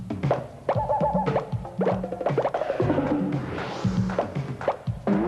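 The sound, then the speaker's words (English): Foam Nerf balls thrown around, giving many soft thunks and plops in quick, irregular succession, mixed with springy boing-like tones throughout. “apparently someone's throwing Nerf balls around”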